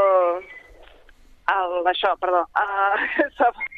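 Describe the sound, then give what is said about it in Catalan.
A phone rings with an electronic ringtone, a short run of bright, steady melodic tones in repeated bursts separated by brief gaps, interrupting a conversation. “Oi, disculpa, perdó. El telèfon”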